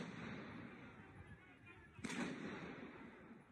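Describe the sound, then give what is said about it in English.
A single sharp gunshot cracks once about two seconds in. A short rumbling tail follows, set against a low, steady background noise at a faint overall level. “There's some shots fired.”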